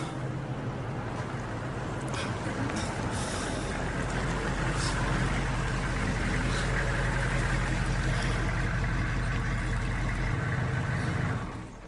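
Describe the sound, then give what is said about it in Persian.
A car engine runs with a steady low rumble for about ten seconds, then shuts off and falls silent near the end. “ماشین خاموش کردی به این زودی رسیدیم کافه”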